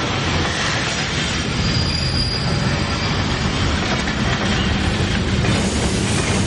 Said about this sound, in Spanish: El tren se detiene